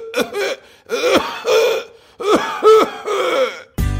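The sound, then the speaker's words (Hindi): Raspy, voiced coughing from a chicken comes in several hoarse, throaty bursts with strained tones, ending in a sudden harsh burst of noise. “अरे खांसते हुए लोगों से लोगों को इतना डर लगता है तो जरा सोचिए खांसती हुई मुर्गी से कितना बड़ा प्रॉब्लम होगा।”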